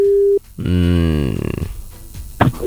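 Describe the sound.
A telephone ring tone for a call to a radio show: one steady, even electronic tone lasting under half a second, then cut off, followed by a low, drawn-out, voice-like humming sound.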